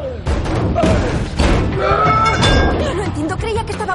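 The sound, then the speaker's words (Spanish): Heavy thuds and a slam as a giant man smashes open a rooftop door in an action-comedy film scene. A few loud impacts sound under continuous talk. “El gigantón destroza la puerta de la azotea.”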